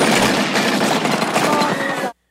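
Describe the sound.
Machine-gun fire rattles out in one continuous, dense burst of rapid shots for about two seconds, loud and unbroken, then cuts off abruptly into silence.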